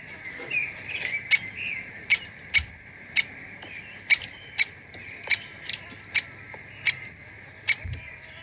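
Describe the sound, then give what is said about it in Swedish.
Two lesser spotted woodpeckers give many sharp, short, high ticking notes in an irregular series, each crisp and clear over a faint steady background, with no talk. “Vad är det vi hör? Det är ljudet av två exemplar av mindre hackspett.”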